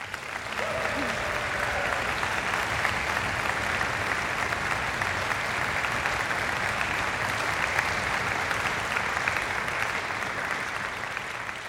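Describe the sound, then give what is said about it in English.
Concert audience at a Cornell afternoon performance applauding a composer whose piece is on the program: sustained, even clapping from many hands that keeps a steady, moderate level for the whole stretch. “It's not every day that you get to have a composer in the audience who composed a piece on the program, so let's hear it for Ji-hyun Kim.”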